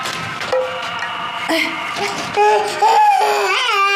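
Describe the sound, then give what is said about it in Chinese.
An infant cries in a string of high, wavering wails and whimpers, its pitch shifting from burst to burst with short breaks between. “哎呀，不哭了，不哭了，不哭了！”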